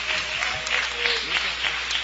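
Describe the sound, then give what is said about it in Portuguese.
Congregation applauding during a church service: steady, dense clapping that runs through the whole moment at an even level, with a voice faintly beneath it. “Palmas para Jesus, irmãos.”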